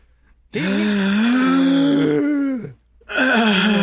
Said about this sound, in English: do you want to take a deep breath with me? Please. I think I need that.